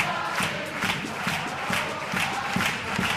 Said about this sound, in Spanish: Y el público que se arranca con el paso doble.